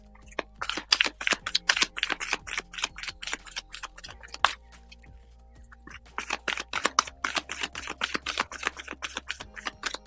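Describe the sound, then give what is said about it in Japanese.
Tarot cards being shuffled: rapid, crisp papery clicks in two dense bursts, separated by a short pause near the middle. “カードをシャッフルいたします。少々お待ちください。”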